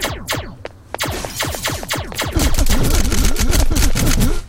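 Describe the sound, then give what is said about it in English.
Gunfire in a multiplayer video game: many sharp shots ring out, sparse at first, then a dense, rapid automatic burst fills the second half, loud and sustained. “someone is trying to shoot at me, and they just shot the item.”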